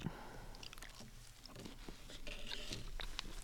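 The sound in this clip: Faint, soft chewing of bread from a Tokyo bakery, with moist mouth sounds and small crunchy bites repeating irregularly and quietly throughout.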